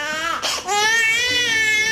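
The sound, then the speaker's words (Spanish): An infant cries after a fall, a loud, continuous high-pitched wail that catches briefly for breath near the start and then carries on at full strength. “Don't cry. Don't cry, hey. Don't cry. No llores.”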